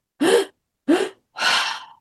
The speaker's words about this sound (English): take a breath, hold it, take another breath on top of that, and then another breath on top of that, and a big sigh.